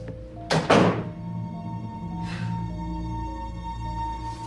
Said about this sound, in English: He opens the door to his apartment, goes inside, and lets out a heavy sigh.